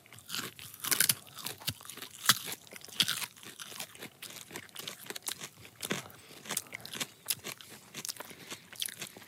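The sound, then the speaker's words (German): Crunching and chewing of a raw, fibrous vegetable: many crisp bites and grinding crunches in uneven rhythm, fairly faint, with no talking. “Also, ich beiß es mal rein. Okay, dann mache ich auch.”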